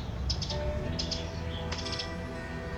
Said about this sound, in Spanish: Te he dicho varias veces que es un pájaro.